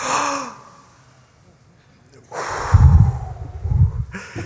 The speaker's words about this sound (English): So on the count of three, I want us to do the biggest inhale you can possibly manage.